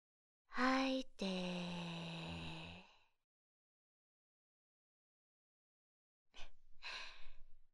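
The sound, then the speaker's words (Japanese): Slow, deep human breathing: a long, partly voiced exhale that lasts about two and a half seconds, then after a quiet pause a shorter, breathy inhale. “吐いて、吸って。”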